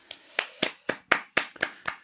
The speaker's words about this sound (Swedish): Applåd.